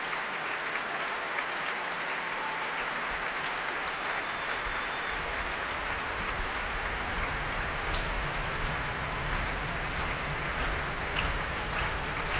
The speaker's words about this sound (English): And that, ladies and gentlemen, is the sound of a capacity audience who have very much enjoyed themselves.